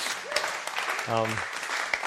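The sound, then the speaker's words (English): Attendees at an annual general meeting clap together in a short burst of steady applause, with a voice briefly heard over the clapping. “Let's give each other a clap.”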